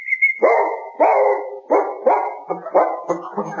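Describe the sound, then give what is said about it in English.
A dog barks repeatedly in a fast run of sharp, loud barks, each short and punchy, with no voices over them. “Nice dog. Does it do any tricks?”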